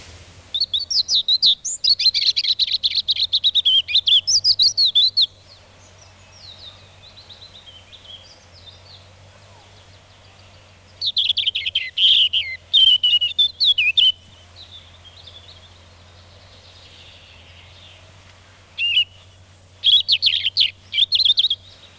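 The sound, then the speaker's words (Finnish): European robin singing: three bursts of high, thin, rapid warbling phrases separated by quiet gaps, with a faint steady low hum underneath. “Punarinta.”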